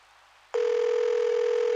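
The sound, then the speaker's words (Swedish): A steady telephone tone from a mobile phone being used to call someone. It starts abruptly after a faint hiss and holds one unbroken pitch, loud and alone. “Så han lyfter upp sin mobiltelefon och slår numret till sin chef.”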